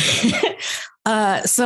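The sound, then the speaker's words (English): Throat clearing and a cough from a person: rough, noisy bursts fill the first part, then after a brief pause a voice speaks. “Excuse me, frog in my throat.”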